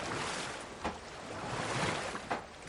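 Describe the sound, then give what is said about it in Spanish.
Oars pulling a small boat hard and fast through a quick river current, with a couple of sharp splashing strokes rising over a steady wash of water. “coge los remos de nuevo y los mueve con esfuerzo y celeridad.”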